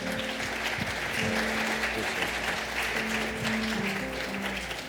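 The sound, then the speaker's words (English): A Church of God audience applauding during a service, a sustained, even round of clapping that stays at a steady level from start to finish. “Well, let's give the Lord a bigger hand.”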